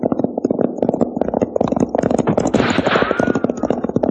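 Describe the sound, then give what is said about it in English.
Gunfire in a gun battle: many rapid, loud shots crack in dense, overlapping bursts, firing steadily through the whole stretch without a real pause. “Sounds like a regular gun battle.”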